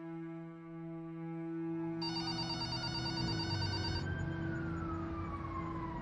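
A telephone rings with a steady electronic tone over sustained musical notes, and a bright, high trilling pattern joins in partway through before fading out.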